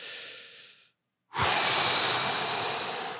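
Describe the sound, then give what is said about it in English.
A breath blown straight into a microphone: a short airy rush, a moment of silence, then a louder, longer exhale that roars across the mic and slowly eases off. “There was the breath. I was thinking there was the breath.”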